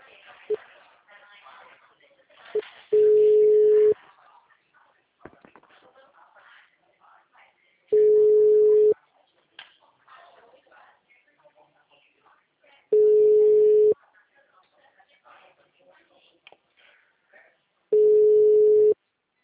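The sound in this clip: Ringback tone on an outgoing telephone call: four long, steady, mid-pitched tones of about a second each, spaced roughly five seconds apart, with faint background murmur between them.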